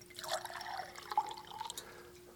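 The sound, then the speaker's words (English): Water is poured in a steady, hissing trickle with faint splashing and no talk. “While I'm pouring water, I'd like to”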